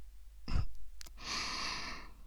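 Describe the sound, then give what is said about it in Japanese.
Gentle ASMR-style blowing into the ears: a short breathy puff, then a longer, soft, airy hiss of blowing that holds steady before cutting off, quiet and without speech. “いっぱい我慢してくれたお耳へのご褒美として、お耳をふうふうして差し上げますね。”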